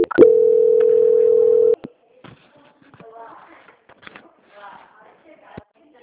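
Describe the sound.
A telephone line sounds a single steady tone while a call is transferred, holding one pitch for about a second and a half. Faint murmuring voices and small rustles follow.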